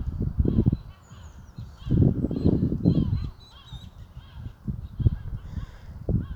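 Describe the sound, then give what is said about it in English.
Seagulls calling, several birds of different sizes squawking in a few repeated harsh calls, fairly loud, set against strong low rumbling bursts. “I'm just watching these freaking seagulls right now. I don't know if you can hear them in the background.”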